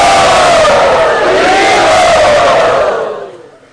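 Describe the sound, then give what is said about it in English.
A large crowd at a yatra gathering cheers and shouts to welcome a guest, a loud, dense, sustained roar of voices that holds steady and then fades away near the end. “Let us all very gratefully and enthusiastically welcome him to our yatra.”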